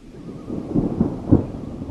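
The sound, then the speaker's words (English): Thunder rolls at dawn over Lake Lila, a low, deep rumble that swells in a few heavier pulses before easing, with no voices. “It's the last morning of our trip, and it's early. I'm not sure exactly what time, but I've been awakened by thunder.”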